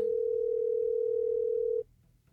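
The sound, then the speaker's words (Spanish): Ringback tone on an outgoing telephone call: a single steady, mid-pitched tone holds for nearly two seconds, then cuts off abruptly, leaving faint background noise. “Ahí está sonando, va, o sea, si no contesta.”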